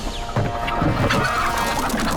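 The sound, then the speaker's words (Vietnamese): Many chickens cluck at once, a loud, dense and continuous mass of overlapping calls with no clear gaps. “Con gà vậy? Trời ơi, đâu mà nhiều dữ vậy? Con gà đây.”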